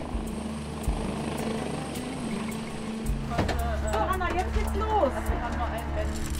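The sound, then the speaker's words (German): An ADAC rescue helicopter, Christoph 26, lands at Wangerooge airfield, its rotors and engine making a loud, steady low thrum that shifts and grows rougher partway through, with people talking over the noise. “Der Rettungshubschrauber landet auf dem Wangerooger Flugplatz. Christoph 26 gehört zur ADAC Luftrettung und ist in Sanderbusch bei Wilhelmshaven stationiert.”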